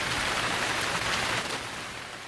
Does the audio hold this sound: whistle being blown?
no